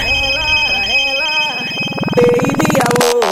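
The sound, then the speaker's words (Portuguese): A telephone rings as a call is placed, its electronic ringtone tones mixed into loud, busy music at a live party set. “E já agora eu vou ligar pra ela.”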